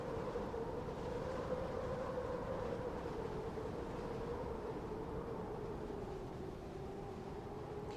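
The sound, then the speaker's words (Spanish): Ambient sound on the summit of Mount Everest: a steady, unbroken, roaring drone with a continuous mid-pitched hum running through it, fairly quiet and without voices. “Este es el sonido registrado en la cumbre del Everest”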